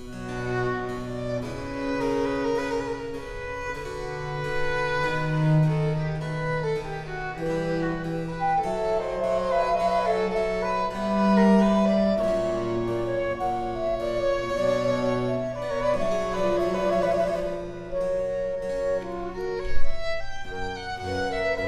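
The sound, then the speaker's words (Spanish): The slow movement of the trio from Bach's Musical Offering unfolds as calm, sustained interwoven melodic lines over a steady low bass, played continuously at moderate volume with no voices. “esa ofrenda musical de Johann Sebastian Bach, que en ese trío nos suena así en su movimiento lento.”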